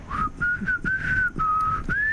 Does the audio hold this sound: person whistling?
yes